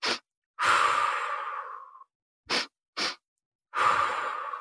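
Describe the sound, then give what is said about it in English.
Breathing practice of two inhales through the nose and one exhale through the mouth: a long, sighing breath out, then two short, sharp sniffs in quick succession, then another long exhale, breathy and soft with no talk. “I did this breath practice of just breathing in 2 strokes through my nose and 1 out through my mouth.”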